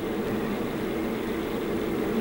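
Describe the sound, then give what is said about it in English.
A car engine revs as a woman stands in front of the car, giving a loud, dense low roar that holds steady throughout. “As Annie steps in front of the monster, Frankenstein revs the engine.”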